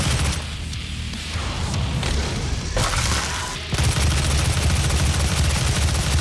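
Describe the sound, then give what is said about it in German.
Heavy gunfire in the video game DOOM forms a dense, unbroken roar of many shots and booms, loud throughout, with no talking. “Ich habe doch schon so viel auf dich geschossen.”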